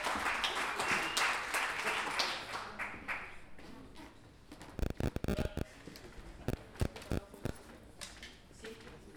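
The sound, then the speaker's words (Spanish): Audience applause at a tournament of improvised verse, dense and steady for about four seconds, then thinning into scattered sharp claps and taps. “Así que un aplauso grande para Ruth Barrales, de Valparaíso.”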